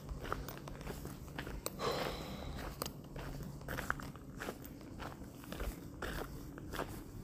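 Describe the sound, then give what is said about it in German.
Footsteps along a lakeside promenade in Lindau on Lake Constance: many faint, soft, crunching steps in a steady walking rhythm over low background noise. “Jetzt gehen wir hier rechts und dann haben wir, Moment, zum Mauensee.”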